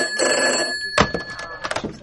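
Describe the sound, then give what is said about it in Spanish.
A telephone rings with an incoming call, giving a steady, bright electronic ringing tone for about a second that then breaks off, followed by a few short clattering sounds. “Aguarda, teño otra llamada.”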